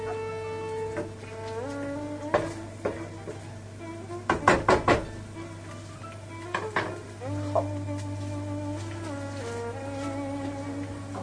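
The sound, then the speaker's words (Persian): Chicken pieces sizzle steadily in a frying pan while being stirred and spread out, with scattered utensil scrapes and clinks against the pan and a brief cluster of sharper knocks midway. “و مرغم رو توی تابه پخش میکنم چون ممکنه یه جا ریخته باشه که کامل تفت بخوره.”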